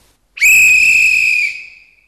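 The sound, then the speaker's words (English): A referee's whistle at a football game gives one sharp, shrill blast that holds steady for about a second before fading out, heard alone. “We finish with a whistle.”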